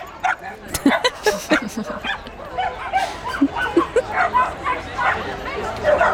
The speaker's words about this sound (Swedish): man hör att det inte är jättevolym på de här kropparna, eller hur? Det är inte de största hundarna.